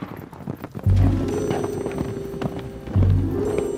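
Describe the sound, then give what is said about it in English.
Horses set off with their hooves clip-clopping in a steady, brisk rhythm that continues throughout. “Come on, giddy up. Woo, giddy up.”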